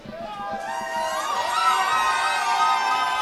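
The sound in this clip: Crowd cheering, whooping and shouting at an evening live music show, a loud, steady wall of voices that builds slightly in level and holds throughout.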